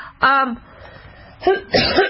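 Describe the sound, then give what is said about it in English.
Coughing from one person: a short harsh cough, a pause with faint noise, then two more rough bursts close together near the end. “Ooh, I'm coughing.”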